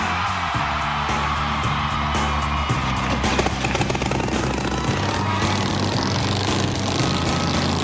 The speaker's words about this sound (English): You want me to start this bike up?